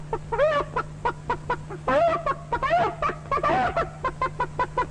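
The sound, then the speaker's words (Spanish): A human voice imitates a henhouse of chickens waking up on a hot afternoon: many quick clucks and squawks in a bobbing rhythm, with a few longer rising cries, over a steady low hum. “Por ejemplo, este despertar en la tarde caliginosa de todo el gallinero.”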